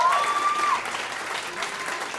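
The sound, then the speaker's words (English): An audience bursts into applause, a steady, moderately loud spread of clapping hands that holds through the moment. A brief high tone sounds at the start. “Yes, clap.”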